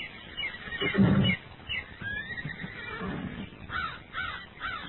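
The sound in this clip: A horse neighs beside a stream: a few wavering, muffled whinnies rise above a continuous rough background rustle, with no talk.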